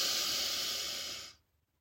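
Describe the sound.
A single long, steady inhalation during a guided breathing exercise in a body-scan gratitude session, a soft airy hiss that holds evenly and then stops abruptly, leaving near silence.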